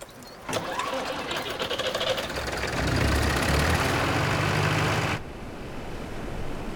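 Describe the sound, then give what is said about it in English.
A generator engine starts up beside a caravan with an abrupt, fast mechanical chatter that holds loud and even, then drops to a quieter, steadier hum near the end. “He cranks the handle a few times, then goes over to a generator.”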